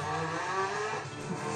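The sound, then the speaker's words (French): A Toyota Corolla rally car drives past with a steady, rough engine roar at moderate loudness that holds fairly even for the whole short moment. “Une bagnole de rallye, tiens.”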